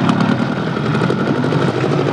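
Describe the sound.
An engine rumbles in a steady, loud, low drone that holds without a break or clear change in pitch, and no voices are heard.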